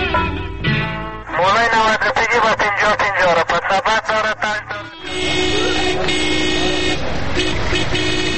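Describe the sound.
Car horns honking, a burst of rapid repeated blaring toots followed by a long, sustained, harmonically rich horn blast, loud against a low rumble of road noise.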